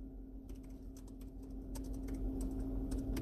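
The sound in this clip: Typing on a computer keyboard gives light, quick, irregular key clicks, faint over a steady low hum.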